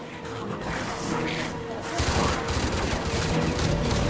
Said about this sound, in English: You opened up with an automatic weapon and John was a foot from him.